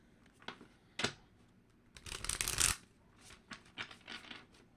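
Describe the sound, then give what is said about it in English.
A deck of African tarot cards being shuffled. Soft rustles and taps are scattered throughout, with one longer, louder riffling burst in the middle. “Let's get some cards. I'm going to be using the African tarot cards.”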